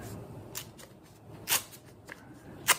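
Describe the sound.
Crisp paper rips as a $100 banknote is torn in half during a magic trick: a few short, sharp tearing bursts rise out of a quiet, hissy background, with no talk over them.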